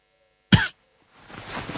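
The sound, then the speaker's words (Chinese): A single short cough, abrupt and loud, standing alone with no talk over it. “范蠡咳嗽一声说”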